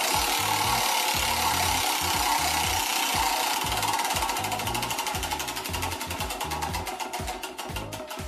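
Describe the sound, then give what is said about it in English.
A Halloween treat prize wheel spins with a dense, continuous run of rattling ticks whose individual clicks grow more distinct and spaced toward the end, with no voices. “So let's spin the treat wheel and see what we'll be talking about in today's intro.”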